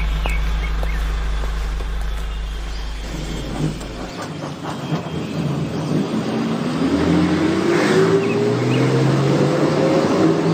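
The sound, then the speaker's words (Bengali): A bus arrives, its engine rumbling loudly and steadily, with a whining tone rising in pitch toward the end as it pulls in. “আরে বাসও এসে গেছে”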